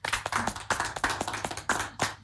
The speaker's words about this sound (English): welcoming for the first time Absa Bank Ghana. Let's clap for them.